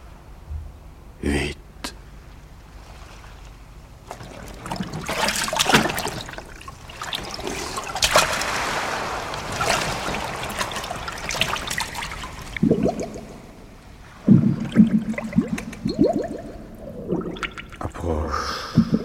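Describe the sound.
Water splashing and sloshing as someone wades into warm sea water, with a brief burst early on, a long stretch of continuous churning and then a few louder splashes near the end.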